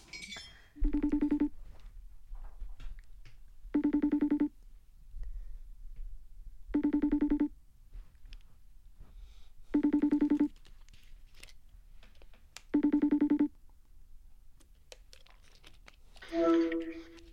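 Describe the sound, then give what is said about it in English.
A FaceTime video call rings out in five evenly spaced bursts of layered electronic tones, roughly three seconds apart. A shorter, different tone follows at the end, all over faint background noise. “Okay, let me FaceTime him real quick.”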